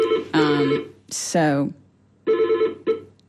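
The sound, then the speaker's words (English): A telephone rings with an unfamiliar electronic ringtone, a few short bursts of bright, buzzy tones, one sliding downward in pitch, clear against quiet. “That's a phone I don't even recognize. I don't even know what that was.”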